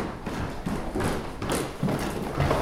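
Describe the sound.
Footsteps walking down the stairs to a basement, a steady series of heavy, evenly spaced thuds at a moderate level.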